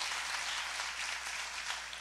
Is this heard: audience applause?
yes